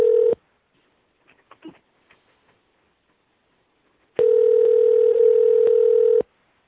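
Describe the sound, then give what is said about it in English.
Telephone tones while placing a call. A steady dial tone cuts off, a few faint short clicks follow, then a long, loud, steady tone sounds for about two seconds and stops. “Dialing”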